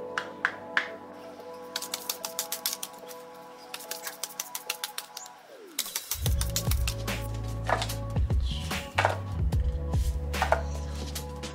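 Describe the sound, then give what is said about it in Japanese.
A deck of oracle cards is shuffled by hand, giving many light, crisp taps and flicks at an irregular pace. A steady tonal background hum runs underneath and grows deeper and fuller partway through. “カードをね引いていきたいと思いますちょっと待ってくださいねシャッフルするから”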